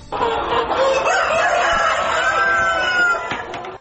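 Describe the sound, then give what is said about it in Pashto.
Chickens cluck and a rooster crows at a chicken farm in Ghazni. A dense, loud flock chorus runs the whole time, with drawn-out crowing calls rising above the constant clucking. “همدارنګه غزنی ته هم ورځو چې هلته د چرګانو فارمونه جوړ شوي.”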